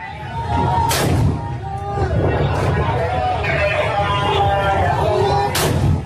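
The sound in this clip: Street gunfire rings out during fighting in Hodeidah, Yemen: a few sharp, loud shots cut through a continuous background of voices and crowd noise.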